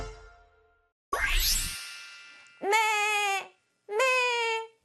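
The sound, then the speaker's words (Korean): A little lamb bleats twice, two steady, nasal, harmonic cries in quick succession, after a brief noisy swooshing burst, in the setting of a children's song. “이렇게 우는 작고 귀여운 어린 양이 있습니다.”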